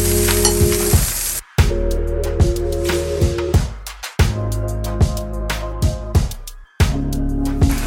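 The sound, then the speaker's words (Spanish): Beaten eggs fry in hot oil and butter in a pan, giving a loud, continuous crackling sizzle with occasional sharp clicks. A few brief gaps break the sound. “Vamos a poner aceite, que ya tengo en mi sartén, mantequilla, esté bien caliente, lo esparcimos.”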